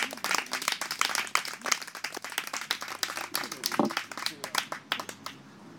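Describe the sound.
An audience applauds with dense, lively clapping that stays loud and busy, then thins out and fades toward the end.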